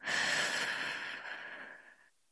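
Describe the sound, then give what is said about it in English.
A long, slow breath, steady and fairly loud, that gradually softens over about two seconds before stopping. “take a long, slow breath in and let it go.”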